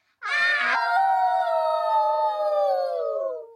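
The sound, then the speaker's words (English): A voice imitates a wolf howling: one long, loud howl lasting over three seconds that opens with a rough burst, then holds steady and slides slightly lower as it fades. “Hiding behind a tree, there was a wolf. And the wolf, he went,”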